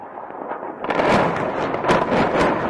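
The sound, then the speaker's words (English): Heavy blasts from airstrikes on the besieged, rebel-held side of Aleppo. A low, dull background suddenly swells into a loud, continuous roar, with a few sharper booming peaks standing out. No talk is heard. “Activist footage from the besieged, rebel-held side of Aleppo shows the resumption of airstrikes on Tuesday.”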